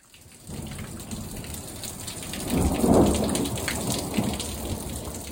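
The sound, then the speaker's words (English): Torrential rain and thunder in Phoenix, Arizona: a steady roar of heavy rain pouring down, with a deep thunder rumble swelling near the middle and slowly fading. “That's the sound of torrential rain and thunder in Phoenix, Arizona yesterday afternoon.”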